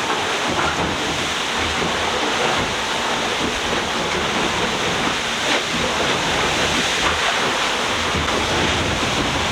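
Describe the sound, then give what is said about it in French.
A wave washes over a boat's deck after the bow nosedives into it. The water makes a continuous loud rush, mixed with wind noise, and keeps an even level with no distinct breaks and no speech. “Ça, c'est quand on se plante un peu, mais pas trop fort. Donc c'est une vague qui passe par-dessus le pont.”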